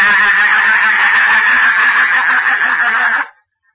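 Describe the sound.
A voice imitates a loud, harsh honking cry like a goose. It is one sustained call lasting about three seconds that cuts off abruptly, with nothing else heard.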